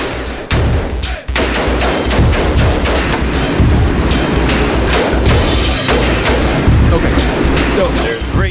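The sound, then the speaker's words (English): A machine gun fires in a political campaign ad: dense, rapid, loud shots repeat almost without pause throughout, with heavy low booming underneath. “listen to the music that they play in the background while he's shooting the fucking machine gun”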